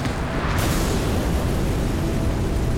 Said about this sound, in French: Et comme par hasard, 6 mois plus tard, l'auberge dans laquelle il passe la nuit explose.